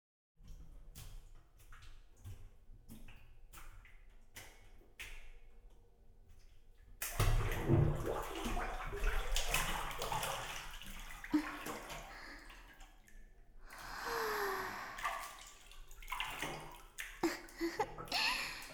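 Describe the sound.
Hot bath water splashing and sloshing: sparse drips and clicks at first, then a loud, sustained wash of splashing, swirling water that eases briefly and swells again.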